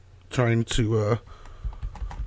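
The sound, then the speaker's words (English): Typing on a computer keyboard: a voice sounds briefly, then a few soft, quick key clicks follow in an uneven rhythm. “trying to type in what you're talking about so I can go look it up”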